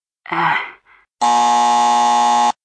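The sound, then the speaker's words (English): Buzzer set off by pressing a button on a phone during a quiz game: a brief vocal sigh comes first, then one loud, steady electronic buzz with a flat, harmonic-rich tone lasting just over a second. “To answer, they press any button on their phone and we'll hear a buzzer.”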